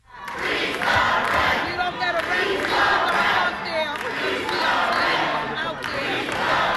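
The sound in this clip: Tenants at a rent board meeting chant "freeze the rent" over and over, a loud, sustained crowd chant with a steady repeating rhythm that fills the whole stretch.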